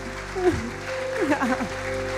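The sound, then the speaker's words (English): An audience applauds the family with a steady, even wash of clapping while voices and tones sound over it. “How about you give the family a hand?”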